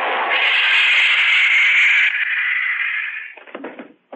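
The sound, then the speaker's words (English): An electric stun gun blast goes off in a dark alleyway: a loud, harsh, sustained buzzing zap with a thin high whine on top lasts about three seconds, then breaks into a few scattered crackling knocks. “That stun gun blast ought to keep him on ice for a couple of hours.”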